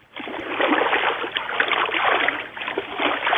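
Bubbling underwater sound effect, a muffled, continuous burble of churning water that swells and dips slightly and runs steadily for about three seconds.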